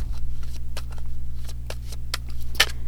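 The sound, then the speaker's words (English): Someone shuffles a deck of cards, producing a run of crisp, short riffling snaps at irregular intervals. Card taps rise clearly above a steady low electrical hum. “two cards popped out while I was shuffling. And I'm just going to see if there's any more that I put them to the side. I'm going to see if there's another card for guidance.”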